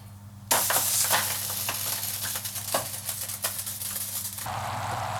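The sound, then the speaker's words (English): Sizzling of blood orange caramel cooking in a hot pan: a steady, dense, hissing fry that begins suddenly after half a second and continues throughout, with scattered sharp crackles and no talking. “I'm making blood orange caramel to swirl into the top of the blondie just before it bakes. Can you hear that change?”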